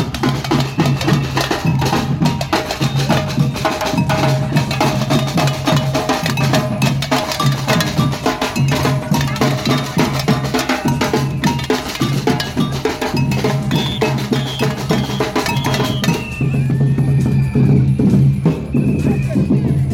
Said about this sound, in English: now this is when the parade gets a bit more noisy. Here's some fabulous samba bands coming our way.